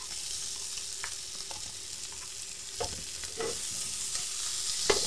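Sausages fry in a pan with a steady, fairly soft sizzle and hiss, broken by occasional knocks and scrapes as they are moved around.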